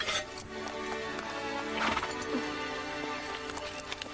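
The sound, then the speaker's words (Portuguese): Hooves of a ridden horse clip-clop faintly and irregularly beneath a sustained tonal background, with the soft hoofbeats never standing out strongly. “Cavalgar não é tão difícil como eu pensava.”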